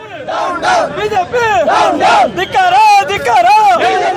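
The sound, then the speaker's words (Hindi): Janata Dal Secular party workers shout slogans outside the Raj Bhavan in Bengaluru. Many voices chant together in loud rhythmic bursts, with pitched calls rising and falling over the massed shouting. “Janata Dal secular के कार्यकर्ताओं ने राजभवन के बाहर नारे लगाकर मांग की कि राज्यपाल वाजूभाई वाला फौरन उनके नेता एचडी कुमार स्वामी को सरकार बनाने का न्योता दें।”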